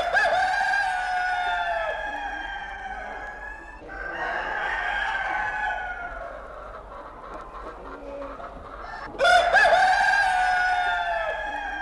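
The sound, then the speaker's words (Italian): Rooster crowing, several long harsh crows with falling pitch at the end, separated by quieter stretches, the last crow louder than the rest, with no talk over them. “Allora, un gallo ogni tanto sicuramente non ci fa male.”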